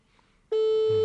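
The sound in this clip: Telephone ringback tone heard while calling and waiting for someone to answer, a single steady electronic tone that starts abruptly after half a second of near silence and holds at an even level.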